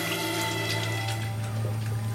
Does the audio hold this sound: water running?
yes